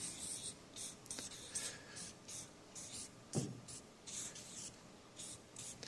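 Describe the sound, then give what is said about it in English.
Someone writes a word on a drawing board, making many short, scratchy strokes in quick succession. The sound is faint. “At 15 years old, I want to write this word down.”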